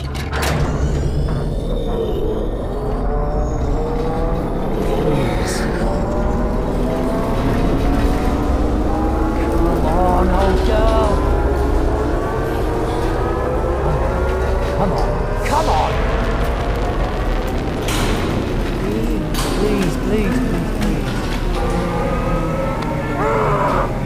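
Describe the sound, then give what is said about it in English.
A video game submarine blows its ballast tanks with a loud, sustained rushing roar over a deep rumble, slowly rising tones and hissing bursts on top. “Blowing the ballast tanks. In 3, 2, One. Now!”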